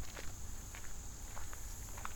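Footsteps of someone walking past a wall on the way to a bird blind by water, a few soft, irregular steps over a steady background hiss.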